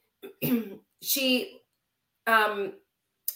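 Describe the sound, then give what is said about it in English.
Rough, voiced coughing from a sick person, three main bursts of about half a second each and the start of a fourth, loud and alone with no talk between them. “I just got a cough.”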